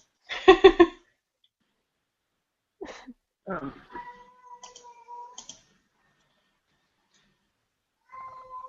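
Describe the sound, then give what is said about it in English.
An upset cat lets out one loud, drawn-out, whining meow. After it, people talk in short bursts. “Is there a really upset cat somewhere? No, you guys can hear that? Yeah. That is my cat.”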